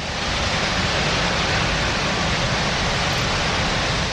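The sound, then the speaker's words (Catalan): Water gushes from the floodgate in the dam wall of the nearly full Susqueda reservoir in La Selva, filled to 94% after heavy rain, making a loud, steady roar that holds unbroken throughout. “El pantà de Susqueda, a la comarca de la Selva, sona així.”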